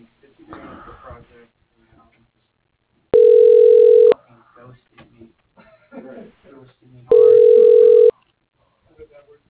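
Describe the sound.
Telephone ringback tones as a call is transferred to voicemail: two long, steady, loud tones of about a second each, separated by a pause, with people talking before and between them.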